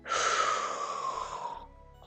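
Deep breath drawn in during a cat-cow back exercise: one long, airy, hissing inhale lasting well over a second that gradually fades away, with no voices.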